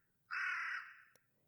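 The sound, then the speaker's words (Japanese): A crow caws at dusk, giving one harsh, drawn-out call that swells quickly and then tapers off, alone against near silence. “夕暮れにカラスが鳴く。”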